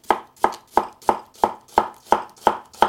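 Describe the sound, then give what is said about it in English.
A knife chops through an onion on a cutting board with nine crisp, evenly spaced strikes, each a sharp knock that fades quickly, in a steady rhythm with no talking. “I'm just going to start by cutting an onion here.”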